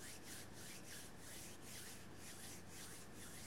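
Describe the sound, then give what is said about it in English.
Two hands rub briskly together, making a faint, dry swishing friction noise that pulses in a steady back-and-forth rhythm with no talking. “I'm going to rub my hands and I'm going to experience it.”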